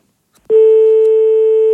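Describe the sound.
A telephone tone follows a hang-up: a single loud, steady electronic tone starts abruptly after a short silence, holds at a constant pitch for about 1.3 seconds, then cuts off.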